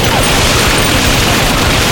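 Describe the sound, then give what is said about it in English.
Full-auto rifle gunfire tears into a cracked stone support pillar inside a temple: a dense, loud, continuous roar of rapid shots and impacts, with no pause. “He aimed the Sin Eater at the cracked pillar, flicked the selector to full auto, and depressed the trigger.”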